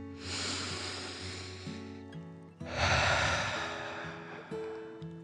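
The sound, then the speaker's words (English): Slow, deep breaths in and out, each a long airy whoosh with a breathy sigh, repeated twice over a low sustained musical drone, with no talk. “Chance took another deep dragon breath in and out.”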